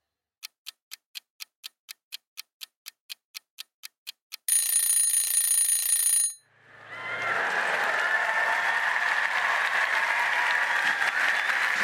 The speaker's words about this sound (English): I think we should play the listeners, us walking out onto the stage at the start of the show